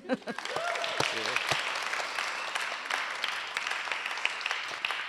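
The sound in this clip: Audience applause greets a speaker at a Melbourne event, a dense wash of clapping that builds quickly and keeps going to the end. A voice is heard briefly at the start before the clapping takes over.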